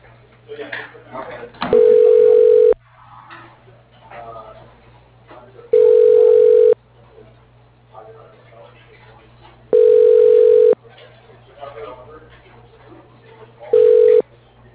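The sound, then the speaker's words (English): Telephone line tones sound while a call is transferred on a business phone system for an electrical contractor: four steady low beeps, each about a second long, evenly spaced, with a recorded voice speaking between them. “Please hold while I transfer you.”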